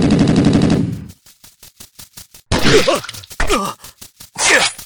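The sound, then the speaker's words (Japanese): Rapid automatic gunfire in a chaotic firefight: a loud, sustained burst lasting about a second, then a string of short, sharp cracks, followed by strained shouting voices between further shots. “撃て、撃ちまくれ。”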